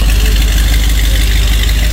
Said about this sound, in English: when he left our house after all those hours, and I thought you were going to cry, he revved it, of course, on our street. See ya. Yeah. This is a 66 Corvette,